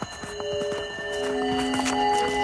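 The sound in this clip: Horse walking through a desert, its hooves making a steady, regular clip-clop of sharp knocks over sustained held tones that run throughout.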